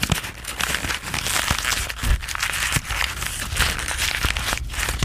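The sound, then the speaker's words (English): A sheet of paper crumpled into a ball by hand during a performance piece, giving dense, continuous crinkling and crackling broken by irregular sharp snaps, fairly loud and alone for several seconds. “someone made a paper and made a ball of a paper that sounds like this”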